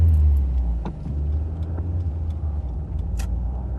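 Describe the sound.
A car being driven fast at night, with a loud, steady low engine and road rumble that stays even throughout, without talk.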